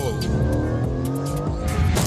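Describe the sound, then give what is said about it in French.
Engine roar from a 510-horsepower Aston Martin Vantage GT coupé with an AMG-developed twin-turbo V8, driven on a track. A loud, dense, continuous drone holds throughout. “essaie la dernière Vantage, un coupé GT de 510 chevaux, très à l'aise sur piste grâce à son V8 biturbo développé par AMG”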